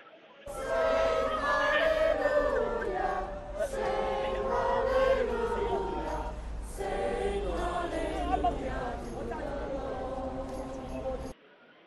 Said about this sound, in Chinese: 咁聽下當時祈禱會人士唱聖詩的現場情況啊。